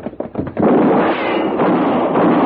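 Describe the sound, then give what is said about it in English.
Sharp gunshot cracks in a Western radio drama, as a man is shot at: a few quick, loud reports followed by a dense, sustained burst of noise. “Mr. Paladin, are you all right? Yeah. You shot at that man. You killed him.”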